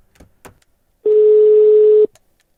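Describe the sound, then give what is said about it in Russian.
Telephone ringback tone heard while placing a call, a single steady mid-pitched beep lasting about one second, alone, with a few faint clicks around it. “Ладно, позвоним Егорке этому.”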